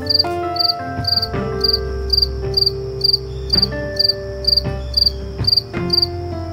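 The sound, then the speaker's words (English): A cricket chirps on a back patio in early evening while it is still light, giving many shrill, high pulsed bursts at a steady, regular rhythm over a low background hum. “here is the sound of a cricket on my back patio.”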